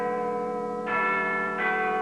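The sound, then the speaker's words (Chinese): A school bell rings for the end of class, a sustained bright metallic chime with two fresh strikes renewing the ringing, heard alone without talk. “这时学校的下课钟声响了起来。”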